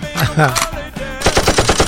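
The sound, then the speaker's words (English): A voice imitates a Tommy gun firing. A short voiced lead-in gives way to a rapid, loud rattling burst of many quick pulses. “She has a Tommy gun. Good thing I brought my Tommy's gun.”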